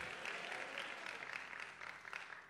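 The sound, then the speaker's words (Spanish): An audience applauds the Lord during a church sermon. Brisk, crowded clapping swells and dips slightly in intensity but stays continuous for the whole clip. “Alguien le da un aplauso al Señor.”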